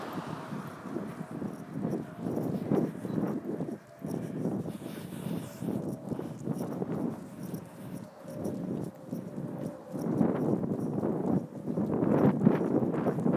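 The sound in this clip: Horse hooves clip-clop steadily as the horse walks past a school entrance, an even rhythmic plodding on hard ground under constant rushing wind noise.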